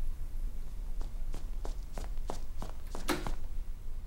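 Footsteps of someone walking outside, a steady run of regular soft steps that grows a little firmer toward the end, with one louder scuffing step near the close.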